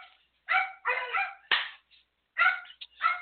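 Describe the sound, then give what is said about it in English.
Dogs barking in a quick, loud burst of several sharp barks and yips with brief pauses between them, heard alone without talk. “And there go my dogs.”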